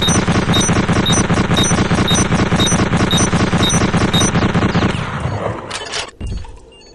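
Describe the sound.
Loud gunfire from a weapon called a manual bolt gun in a video game: a rapid, steady stream of shots for about five seconds, then trailing off with a final sharp crack.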